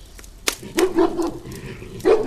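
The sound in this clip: Three dogs bark as they pounce on partridges during a hunt. Several sharp barks and yips come at irregular intervals, ending in a louder burst of barking.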